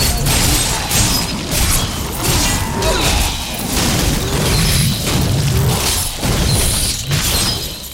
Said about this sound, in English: There's a bunch of ravenous dead and two grotesques. And, leap attack!